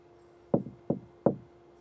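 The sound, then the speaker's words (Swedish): Three evenly spaced knocks on a hotel room door at the Park Lane Hilton in London as a cleaner arrives, each a crisp wooden rap over a faint steady hum. “Klockan har precis slagit 9 på morgonen när en av hotellets städare knackar på dörren till rum nummer 2005.”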